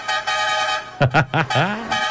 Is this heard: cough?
no